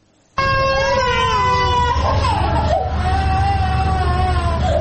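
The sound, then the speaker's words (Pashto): Sick children crying in a hospital ward, young patients with diarrhoea; loud, sustained wailing starts abruptly and wavers in pitch, dipping partway through, over a low steady rumble. “دا راپور په روغتون کې د بستر ماشومانو په فریاد پیلېږي.”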